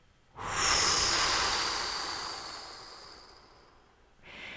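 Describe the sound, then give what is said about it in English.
Deep breathing: a long, forceful blow-out of breath that rushes loudly, then slowly fades over a few seconds, and a fresh breath starts just as it ends. “Take 3 breaths with me and let's blow this awareness into physical reality. Take a big inhale and blow.”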